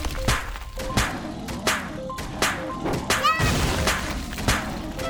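Plate launcher fire hitting a bear in a video game: a quick run of sharp smashing thuds and thwacks, with ringing metallic tones, over a busy, continuous game background.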